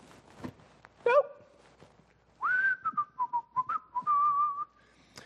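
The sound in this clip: A person whistles: a short bright rising note comes first, then after a pause a longer wavering melody of several clear, fairly high notes, with faint background noise between them.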